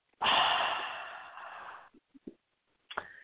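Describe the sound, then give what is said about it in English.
A big breath is drawn in through the nose and let out through the mouth. It is heard as one long, loud rushing breath lasting over a second, followed by a few faint, brief breathy sounds. “Take a big breath in through your nose and out through your mouth”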